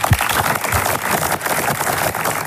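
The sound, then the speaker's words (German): Applause at an art exhibition opening: dense, steady clapping fills the whole stretch at an even level, with no talk standing out. “ich glaube, das ist einen extra Applaus wert.”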